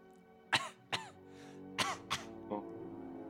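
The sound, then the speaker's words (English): Five short, rough coughs, voiced for were-rats during a tabletop role-playing game. They come as separate bursts spread over about two seconds, fairly faint over a quiet background. “Some of these were-rats cough.”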